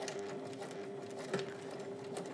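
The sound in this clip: A sewing machine stitches carefully over the teeth of a plastic zipper, giving a faint, steady whirring hum with a slight bump near the middle and no talk over it.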